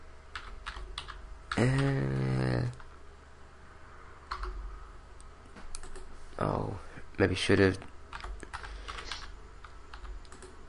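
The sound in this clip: Someone types a search on a computer keyboard: quick bursts of light key clicks with pauses between them, while people talk over the typing.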